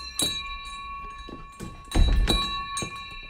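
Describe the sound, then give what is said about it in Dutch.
A door bell rings at a small sewing workshop in Westerbork, Drenthe, with a few bright metallic strikes and lingering ringing tones. A heavy low thump, like a door, sounds midway. “Waar vind je nog zo'n mooie bel?”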